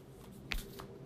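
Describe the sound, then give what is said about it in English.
Tarot cards being shuffled: a single soft, brief riffle of cards, faint against a quiet background. “And I still continue, as I'm shuffling the cards, to be present.”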